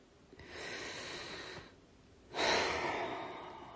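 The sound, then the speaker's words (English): A long deep breath is drawn in softly and steadily, followed after a brief pause by a louder, fuller breath out that gradually fades, with no talking. “Let's take a long deep breath. And another.”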